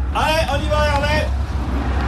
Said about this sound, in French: le camion ne s'est pas arrêté, et je viens juste de récupérer le cône, et le camion continue de rouler, en fait.